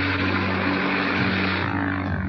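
A propeller airplane engine drones on a lean fuel mixture while losing altitude over the Rocky Mountains, a steady, loud hum with layered tonal harmonics that holds throughout.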